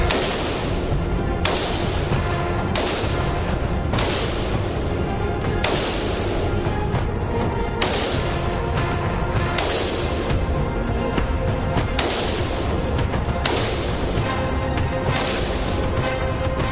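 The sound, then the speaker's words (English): Rifle shots at a shooting range: sharp, booming reports repeat every one to two seconds over steady background noise, with no talk. “That is the process that you go through if you want to buy a rifle and then shoot a rifle.”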